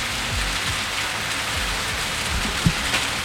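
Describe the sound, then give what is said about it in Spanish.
Heavy rain pours steadily onto a city street in the lower part of Valparaíso, a dense, continuous hiss that stays loud and even throughout, with a few soft low thumps beneath and no voices. “Llueve a esta hora muy intensa la lluvia que está cayendo en Valparaíso. Nosotros estamos en el plan de la ciudad. Este es el ruido ambiente, este es el sonido.”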